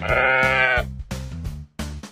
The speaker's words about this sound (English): Sheep.